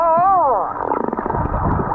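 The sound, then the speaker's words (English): Humpback whale calls from a pod near snorkelers in Bermuda: a loud, wavering tonal moan rich in harmonics bends up and down, then gives way to a rougher, pulsing low grumble. “That's a group of humpback whales.”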